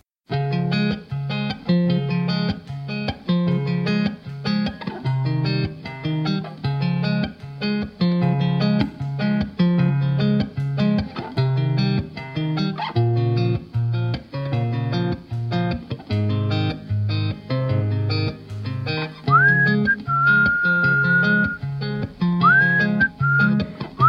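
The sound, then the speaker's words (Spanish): Whistling opens a song, as a pitched whistled melody rides over full, steady band music with a driving beat. The whistled line comes in clearly near the end, with short upward slides into held notes. “una canción que inicia el disco con un silbido”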